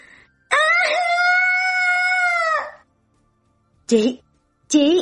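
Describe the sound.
A woman's piercing scream inside a car speeding away after an escape: one long, high, sustained wail lasting about two seconds, then after a pause two short, sharp cries.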